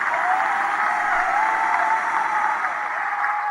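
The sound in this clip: An audience applauds a band as it is welcomed: dense, even clapping at a steady level for the whole clip, heard alone without talk.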